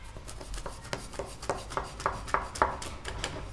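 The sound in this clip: Baklava is cut by hand with a knife, without a ruler, in many quiet, short, crisp strokes that come in a fairly steady rhythm, with no talk.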